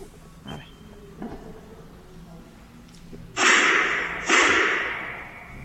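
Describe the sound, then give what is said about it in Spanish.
Firearm gunshots reported near a technical school: two loud, sharp bangs with trailing decay come close together near the end, after a couple of faint thumps over a low background. “Nos están reportando que el día de ayer por la tarde hubo detonaciones de arma de fuego. Vamos a escuchar.”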